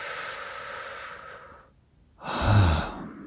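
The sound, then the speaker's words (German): Deep breathing in and out: a long, soft, airy breath, a short silent pause, then a louder, fuller breath with a low rush of air, with no talking. “wenn ich atme zum Beispiel, und ich atme tief oder flach, kommt nicht mal darauf an, ja. Ich atme ein und aus.”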